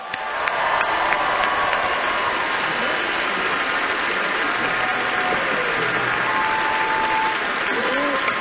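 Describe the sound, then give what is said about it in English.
A Grand Ole Opry audience applauds to welcome a guest announcer. The clapping is steady and dense, holding at an even level for the whole stretch. “will you give a big Grand Ole Opry welcome to our guest announcer, Macy Page.”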